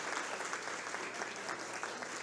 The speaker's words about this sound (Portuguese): Uma salva de palmas também à Sônia,